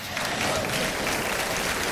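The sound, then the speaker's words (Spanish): Audience applause during a church sermon: a full, dense wash of many hands clapping at once, loud and steady. “Nosotros aplaudimos, ellos no.”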